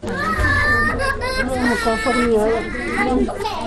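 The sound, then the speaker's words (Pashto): Children scream and cry in mourning at the family home of a 15-year-old killed in an attack. The wailing is loud and continuous, with high wavering cries overlapping throughout. “دا راپور یې برابر کړی چې د خدای بخلي د ماشومانو په چیغو پیلېږي”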